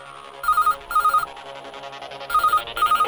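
A telephone rings for an incoming radio call-in: two pairs of short, bright electronic trilling rings separated by a pause, over a steady low background.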